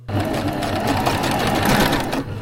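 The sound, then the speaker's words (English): A skin sewing machine whirs steadily as it stitches fur hats, giving a continuous loud mechanical buzz with a rapid needle rhythm and no pauses. “to Juneau for SHI's three-day workshop on how to use a skin sewing machine. With coaching from Clinkett Louise Kadinger, he quickly learned to make fur hats 10 times faster”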